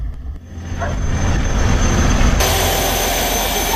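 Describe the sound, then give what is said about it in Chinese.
A continuous heavy engine roar from a 540-horsepower tugboat towing nine unpowered barges carrying 10,000 tons of cargo, loud and steady throughout with a deep rumble and broad hiss. “后面的九条船没有动力，叫做驳船，而最前面的动力船拖船，跑船人习惯叫它拖头。”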